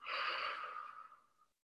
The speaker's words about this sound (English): I invite you to take a deep breath in and out.